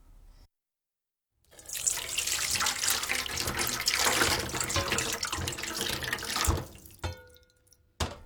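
Tap water runs steadily over fried fish balls sitting in a strainer as they are rinsed. A loud, even rush lasts about five seconds after a short silence, then fades into a few faint drips and clatters.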